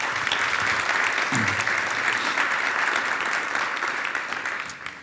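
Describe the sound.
Sustained audience applause as a speaker is welcomed onto the stage, a thick, even wash of clapping lasting about five seconds that begins to taper off at the very end.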